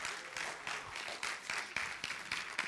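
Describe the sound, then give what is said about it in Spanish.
A church audience claps together during a service, producing quick, steady rhythmic hand claps that stay fairly faint and even. “Denle un fuerte aplauso, Señor, porque si eso no nos emociona,”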